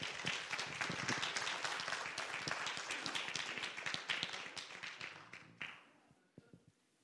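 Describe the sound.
A church audience applauds to welcome guests at a morning service: dense, loud clapping sustained for several seconds, then thinning to a few scattered claps as it fades out.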